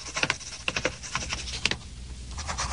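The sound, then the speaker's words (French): Pen scratching across paper, a few quick uneven strokes with soft rustling between them, faint and alone. “Non, il ne tape pas à la machine. Il écrit. Question, il écrit avec un stylo,”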